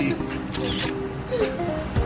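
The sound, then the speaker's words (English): A camera shutter clicks as people pose for a selfie during a breakfast tasting. The short mechanical snap sits under steady chatter and voices. “In true me fashion, we need to take a selfie.”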